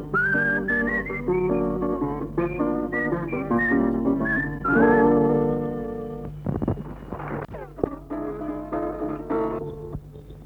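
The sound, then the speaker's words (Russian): Whistling in the dark: a tuneful run of high whistled notes that rise and fall in a melody for about ten seconds over a steady low hum. “И бьется свист во мгле, режет слух, как лезвие.”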